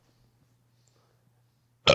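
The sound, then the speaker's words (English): A single short, loud burp breaks out right at the end after near silence over a faint low hum. “I was burping.”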